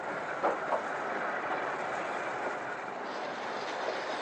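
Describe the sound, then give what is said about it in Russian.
A train starting to move gives a quiet, steady rolling rumble with a few faint clicks, holding an even level throughout. “Состав трогается.”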